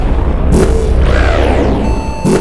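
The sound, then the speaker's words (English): Space video game sound effects as a spaceship is hit by an enemy shot: loud noisy bursts, a sweeping synthetic tone, then steady electronic beeps over a constant rumbling hum. “Enemy shot. We've been hit.”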